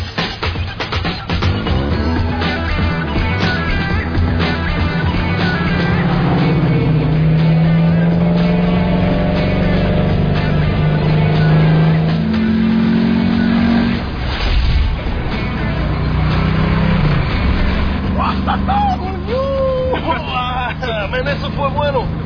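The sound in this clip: A car driving fast gives a loud, steady engine roar that holds for the whole stretch, with a crowd of voices murmuring underneath.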